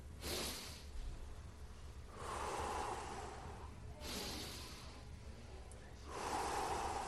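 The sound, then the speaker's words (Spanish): Deep abdominal breathing demonstrated by a person: a few long, loud breaths drawn in and let out slowly, each a soft breathy rush with pauses of quieter air between. “Pero cuando yo digo respiren profundamente, deben de hacer...”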